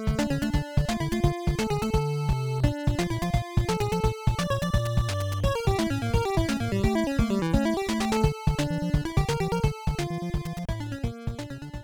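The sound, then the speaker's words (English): Chiptune video game music: an old console mansion theme with its Famicom Disk System lead melody removed, leaving bright square-wave harmony, bass and percussion in a steady, dense rhythm with brief dropouts. “And if we take out the FDS lead from the mansion track, it's going to sound like this.”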